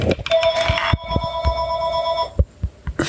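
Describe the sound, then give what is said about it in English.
A telephone rings in one sustained burst of steady, bell-like tone, accompanied by a few short knocks and thumps before and after the ring. “Let it ring. Give me a minute.”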